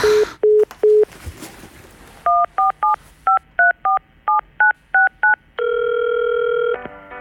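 Telephone keypad tones dialed into an automated phone menu: three short beeps, a noisy gap, then a brisk run of many crisp paired-pitch tones, followed by one long steady tone and a rapid stutter of short beeps at the end.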